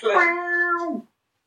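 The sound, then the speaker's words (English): A person imitates a cat with one drawn-out, fairly loud meow about a second long. The pitch holds steady, then dips at the end before the sound cuts off. “There's a cat. Meow.”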